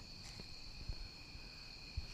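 Bugs chirp outdoors in a faint, steady, high-pitched drone that holds two sustained tones without pause, with a couple of soft thumps beneath.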